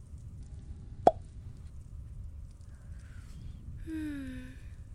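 A wine bottle is uncorked with one sharp, bright pop that stands out against an otherwise faint, quiet background.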